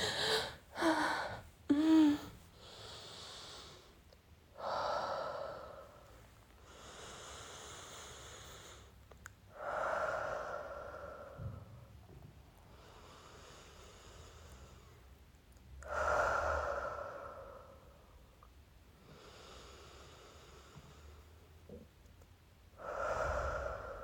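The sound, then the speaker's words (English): Slow, deep breathing during a relaxation exercise: a few quick, sharp breaths at the start, then several long, airy inhales and exhales spaced evenly apart, breathy and fairly quiet with no talk. “Now you just relax. Breathe with me.”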